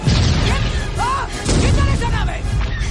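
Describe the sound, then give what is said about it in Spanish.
A red spaceship explodes in a science-fiction adventure film, giving loud, heavy booming rumbles mixed with other soundtrack noise. The blast sound dips briefly partway through, then surges again. “La nave roja estalla.”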